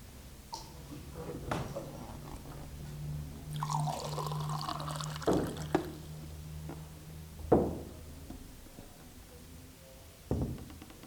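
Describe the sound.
Water poured out to be given for drinking: a splashing, trickling pour is followed by several hard knocks and clunks, like a glass or bottle being set down.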